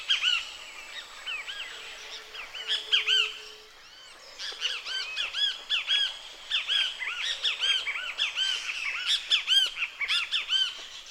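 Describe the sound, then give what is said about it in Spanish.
Great kiskadee calls: many harsh, squawking bird notes repeated in quick, uneven series. They are fairly loud and heard alone, with no voices. “para compararlo, escuchemos el Luis bien te veo otra vez.”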